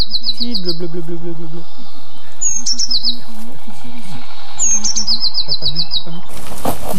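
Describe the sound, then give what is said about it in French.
Blue tit song: three short bursts of high, thin, rapid trilled notes separated by pauses, bright and clear over a low, busy background. “Un mésange bleu. Une très commune aussi, mais très discrète. Elle fait toujours deux.”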